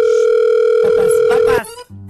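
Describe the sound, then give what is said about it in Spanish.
A steady telephone dial tone sounds while a call is being placed. It holds at one even pitch for about a second and a half, then cuts off, and a few brief, softer sounds follow. “Vamos a marcarle a ese vato, se llama.”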